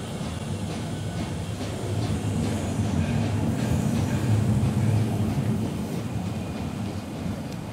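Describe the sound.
A train rumbles at a station platform as it departs, a steady low roar and rattle of wheels that holds an even loudness throughout, with no voices.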